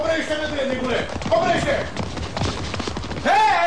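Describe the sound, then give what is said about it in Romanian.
Horse hooves clip-clop as a horse-drawn cart from Anghiere moves along, giving a rapid, irregular run of hard knocks under people talking. “Văd acolo căruța din Anghiere și mă duc până la ea.”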